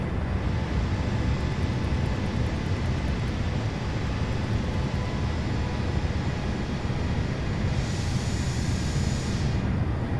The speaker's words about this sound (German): Also ich muss schon sagen, die Landung war hart.